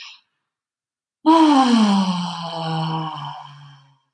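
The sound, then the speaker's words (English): A long, extended exhale drawn out as a voiced sigh, starting strong and tapering slowly over almost three seconds while its pitch gradually falls, heard alone without talk. “one way I like to do this is, it's probably picked up from yoga, but it's just to really extend that exhale.”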